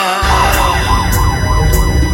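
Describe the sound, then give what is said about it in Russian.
A siren wails loudly, its pitch rising and falling in repeated, steady cycles over a low rumble. “Играет шарманка и воет сирена.”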